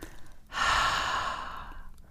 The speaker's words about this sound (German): Und da kann man zum Beispiel mal ausatmen durch den Mund